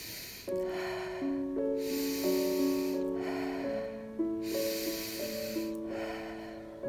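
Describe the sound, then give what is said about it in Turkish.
Slow, deep breaths, drawn in through the nose and released through the mouth, rise and fade a few times in an unhurried rhythm over soft, sustained musical tones. “Burnumdan nefesimi uzun ve derin çekiyorum. Ağzımdan rahatça bırakıyorum.”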